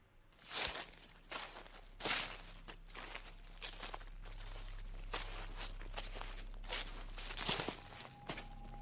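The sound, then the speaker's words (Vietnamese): Footsteps rustle through a garden at night, as a few uneven, scuffing, crunchy steps spaced irregularly over about nine seconds above a faint, steady low hum, with no talking. “có tiếng chân của ai đó đang sột soạt đi lại ở ngoài vườn.”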